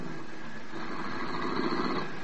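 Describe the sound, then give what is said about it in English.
A car engine idles at a club's stage entrance, giving a steady, even rumble and hum with no clear changes for about two seconds. No voices are heard. “A car drove up to the stage entrance just as Peggy McConnell emerged from the club.”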